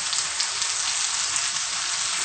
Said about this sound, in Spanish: Ahora ya podemos echar la verdura. Justo cuando está empezando a hervir, ¿verdad?